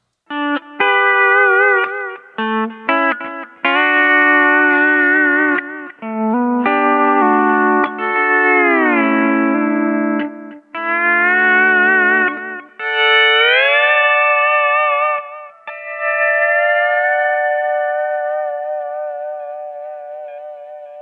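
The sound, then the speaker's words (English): Electric guitar through a delay pedal with its volume knob turned back to about eight o'clock, so only a low level of repeats blends under the notes. Bright melodic phrases and bent notes are played, ending on a sustained chord that rings out and fades. “if we roll the volume knob at the top of the box back to around 8 o'clock or so, we get a lower delay signal blended in compared to what we just had”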